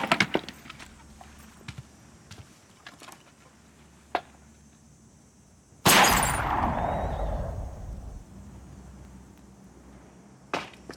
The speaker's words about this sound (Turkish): 20 mermi stoğum var. 5'ini şimdi harcıyorum.